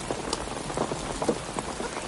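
Rain falls outdoors with a steady soft hiss of drops patting on surfaces, where a canvas sheet is set up to keep chairs dry. The patter stays even and fairly faint, with scattered louder drops and no talk.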